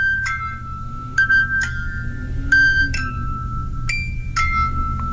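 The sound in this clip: A music box whose dancer figurine is gone plays its melody as a sparse run of bright, tinkling metallic notes, a few separate plucked tones ringing out over a steady low rumble.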